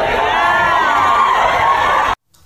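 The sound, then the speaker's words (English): An audience in Sacramento cheers and shouts loudly in one dense, sustained roar that cuts off abruptly near the end. “And you can hear just the people in the audience.”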